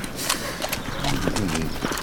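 A horse's hooves clop steadily while the animal is held still for a nobleman to mount, and a short harmonic whinny sounds near the middle over the hoof beats.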